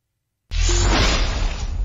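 A spell is cast in a video game battle against a jagged rock golem: a sudden whooshing burst after silence, then a dense, sustained rushing hiss over a low rumble that carries on to the end.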